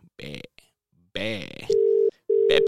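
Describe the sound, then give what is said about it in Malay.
Telephone ringback tone heard while calling a friend: two steady, low, even ring bursts separated by a short gap, coming after a brief stretch of a man speaking. “So harap-harap dia tak busy untuk angkat menelpon saya. Angkat telefon saya pula.”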